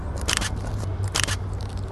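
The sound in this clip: Camera shutter firing while photographing: two crisp, clattering bursts about a second apart over a steady low hum.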